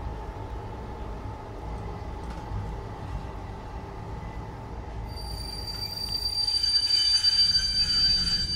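A passenger train runs on its rails near Freilassing with a steady, continuous low rumble; about midway, thin high wheel squeals rise above it and the whole sound grows slightly louder.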